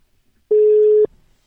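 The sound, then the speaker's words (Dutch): A single steady electronic ringing tone sounds on a telephone line while a grandmother is being called: one clear, even-pitched beep lasting about half a second, alone against near silence. “Maar even mijn oma bellen om te checken hoe het gaat, is misschien wel leuk.”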